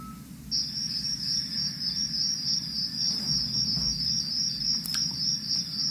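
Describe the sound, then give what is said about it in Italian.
Crickets chirping in a steady, high-pitched trill that runs unbroken through the whole clip, over a low background rumble. “Sono suggestivi i grilli. Ricordano la quiete notturna.”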